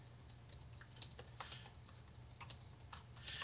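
Faint typing on a computer keyboard: soft, irregular clicks and taps in uneven bursts over a low, steady hum.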